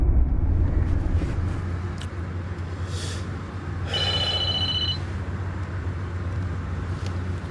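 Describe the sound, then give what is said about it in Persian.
A telephone rings as a call is placed to the doctor. A short electronic ring tone sounds once over a steady low rumbling hum. “تا دیر نشده بگو شماره دکتر رو بگیرم. بده خودم زنگ بزنم.”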